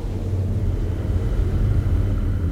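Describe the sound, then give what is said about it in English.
A spaceship comes in to land with a loud, steady, low rumbling drone. The roar stays even throughout, with no voices. “I think the distress beacon is working. Someone appears to be landing.”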